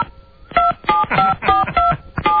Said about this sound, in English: We're trying it on another line right now. We're trying to call on another line.